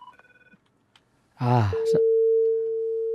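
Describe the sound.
A telephone line tone after a dropped call: a few short beeps at the start, then a louder brief burst, and finally a long, steady, unbroken tone that holds to the end.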